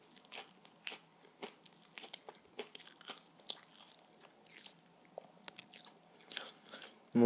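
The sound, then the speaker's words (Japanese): Crisp crunching and chewing of senbei rice crackers, with many sharp, irregular bites and crackles spread over several seconds, quiet and close, with brief soft gaps between crunches and no talk. “俺いつぶりにせんべい食べただろうリアルに”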